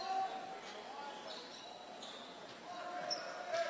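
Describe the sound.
A basketball dribbled on the court before a free throw at a high school game, soft muted thuds beneath a voice talking over a steady crowd murmur.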